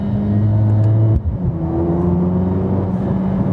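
A Mercedes-AMG car engine revs hard under throttle with a loud, steady mechanical drone. It breaks off briefly after about a second, then picks up again and climbs slightly in pitch.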